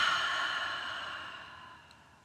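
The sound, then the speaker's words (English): A deep breath is exhaled slowly during a guided breathing exercise: a soft, airy rush of breath that fades gradually over about two seconds, with no talking. “Taking a deep breath in and exhaling.”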